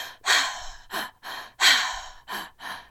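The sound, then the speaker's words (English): Fast breathwork breathing: many rapid, forceful breaths follow one another in quick succession, loud and airy, with short silences between them and no talk. “when they taught me the style of breath, it was pretty fast. They teach it as like a,”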